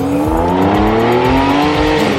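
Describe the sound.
A Ferrari sports car engine revs loudly and continuously, its droning, buzzy tone climbing steadily in pitch over about two seconds.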